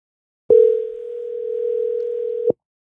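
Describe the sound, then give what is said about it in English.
A telephone dial tone plays while someone places a call: a single steady, mid-pitched tone lasting about two seconds, starting and stopping cleanly, with no talk over it. “I'm just going to call him and see if he answers.”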